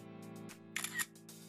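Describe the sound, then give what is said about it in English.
A phone's camera shutter fires as a selfie is taken, a quick bright click burst over a faint, steady low hum, followed by a softer trailing rustle. “And as proof, I'm taking a selfie.”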